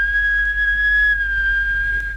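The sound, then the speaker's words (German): A person whistles a sustained, nearly steady clear tone that wavers slightly in pitch, over a constant low hum. “Pfeifen.”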